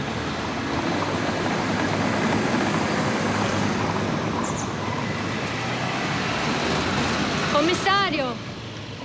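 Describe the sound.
A car pulls up beside a person walking on a street: a steady rumbling wash of engine and road noise runs through the whole clip, with a brief voice near the end.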